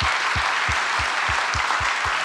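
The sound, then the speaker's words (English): A church audience applauds, producing steady, evenly spaced clapping that holds a regular rhythm from start to finish. “Come on, let's give the Lord a great hand, everyone. Let's give the Lord a great hand.”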